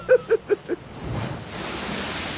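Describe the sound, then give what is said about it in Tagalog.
Water rushing into a room as a drama sound effect: four short, hollow tonal pulses come first, then a broad, steady rushing wash of water takes over and continues to the end. “Hala! Mang Kanor! Naay tubig na nasulod sa itong kwarto! Ay, panamay naay tubig!”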